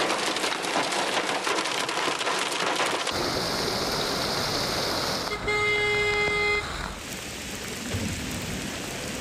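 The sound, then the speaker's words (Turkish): Heavy rain pours down on city streets in a steady loud hiss, joined midway by a sustained car horn toot and passing traffic, then continues as a softer, even downpour. “Başkente öğle saatlerinden sonra başlayan sağanak yağmur etkili oldu.”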